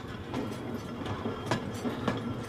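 A train bound for Berlin moves along with a steady, quiet rolling rumble, broken by a few evenly spaced wheel clacks.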